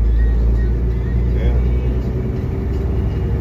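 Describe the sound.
Low, steady engine rumble inside the cab of a new semi truck as it slows down, a dense drone that stays loud and even throughout.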